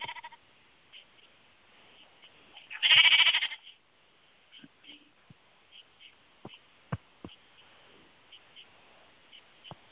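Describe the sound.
A sheep bleats once in a video game, a loud wavering cry of about a second, surrounded by scattered faint clicks and taps.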